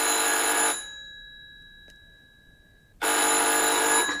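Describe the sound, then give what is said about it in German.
A telephone bell rings loudly in two long, steady-pitched bursts, with a stretch of near silence between them and no voices. “Gleich klingelt draußen das Telefon.”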